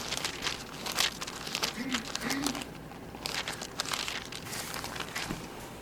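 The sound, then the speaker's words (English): Thin Bible pages flipped back a few at a time, heard as crisp papery rustles and crinkles in uneven bursts. “So back up a few pages, just a few pages.”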